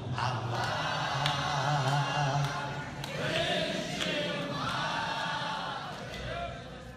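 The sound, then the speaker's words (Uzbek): A concert hall audience of Uzbek expatriates in America sings along with an Uzbek hafiz singer. Many voices blend into a broad, moderately quiet mass of singing that swells and eases. “Zalning Hofizga jo'r bo'lishi.”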